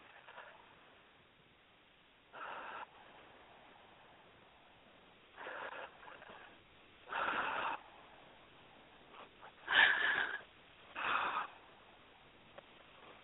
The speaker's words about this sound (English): Three nice deep breaths. Here it goes.